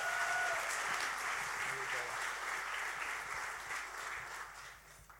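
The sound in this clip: Applause from a church audience in Bulgaria welcoming a guest: dense, steady clapping that fills about five seconds and eases off slightly toward the end.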